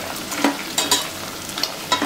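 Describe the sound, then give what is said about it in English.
Bacon fries and froths in its own fat in a pan with a steady, bright sizzling hiss. Scattered sharp pops and crackles rise above it. “If you need to turn the heat down, you don't want to burn that bacon. You just need it brown and crispy all around. Now you can see the bacon frothing.”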